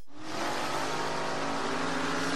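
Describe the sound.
A motorcycle engine accelerates, roaring loud and steady throughout with a dense, rough, revving drone after a brief quiet start.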